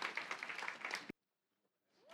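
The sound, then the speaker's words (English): Audience applause at a church campus's ten-year anniversary gathering: about a second of dense, fluttering clapping that cuts off abruptly into near silence, followed by a faint rising sound at the very end. Quiet overall. “Now, for all of you that sat out and you have a seat, that's enough applause for you.”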